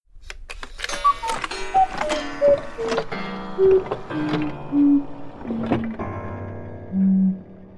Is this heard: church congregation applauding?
no